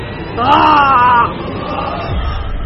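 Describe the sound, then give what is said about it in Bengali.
A man's anguished scream, one drawn-out wavering cry lasting about a second that breaks off into low background noise. “ওর গলা চিরে বেরিয়ে আসে একটা দোলা পাকানো আর্তনাদ।”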